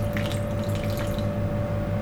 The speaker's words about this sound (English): And now would be a good time to add just a little bit more water. So we'll do that.